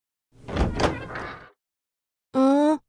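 A door being opened: a rough scraping rattle lasting about a second, then after a short pause a brief, loud, tonal squeak; no voices.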